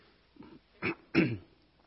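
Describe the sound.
Throat clearing from someone with an irritated throat that a cough drop has not soothed: two short, harsh rasping bursts after a faint small one, fairly quiet, with no words.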